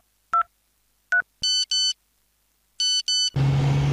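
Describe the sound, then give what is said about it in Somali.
Electronic tones from a mobile phone: two short two-note beeps, then two pairs of longer multi-tone chimes, loud and clean, ending in a burst of steady hissing noise. “telefoonkiisa ayaa shanqaray”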